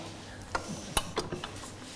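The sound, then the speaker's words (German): Small metallic clicks and clinks come from a beater attachment being swapped on a hand mixer: a few sharp, irregular taps over a faint background. “Fehler passieren, so wie hier jetzt, ist das halt nicht der Rührer, mit dem man das schaumig rührt, sondern es muss der sein. Also wird er nochmal gewechselt.”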